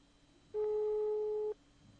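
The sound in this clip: Ringback tone of a telephone call that goes unanswered: one steady, buzzy beep about a second long, standing alone over faint background noise.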